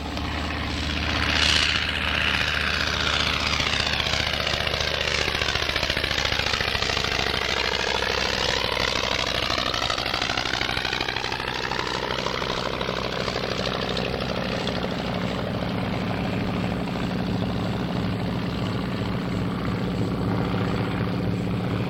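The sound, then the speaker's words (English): A PT-23 propeller aircraft on a runway gives a loud, rough engine drone that holds steady throughout, with a whining tone that dips and then climbs again. “Walk overhead with a PT-23 coming up a runway.”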